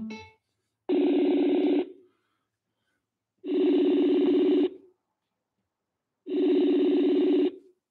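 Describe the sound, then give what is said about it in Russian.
Three ringback tones sound as a telephone call is placed. Each is a steady, buzzy low tone lasting about a second, evenly spaced with silence between them. “Набираю.”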